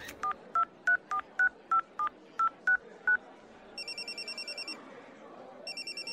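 A telephone dials an unanswered number: ten evenly spaced dial tones, then two bursts of rapid trilling ring tone with a pause between, and no one picks up.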